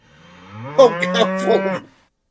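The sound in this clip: A cow moos once, a single long, low, droning call lasting about a second that swells and then fades, with no other sound around it.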